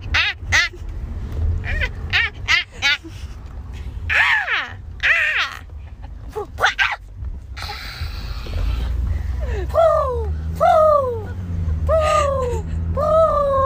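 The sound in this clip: A voice mimics two plovers fighting with many harsh, raspy squawks and caws, followed by a run of sharp, repeated high chirping calls, each quick and falling in pitch.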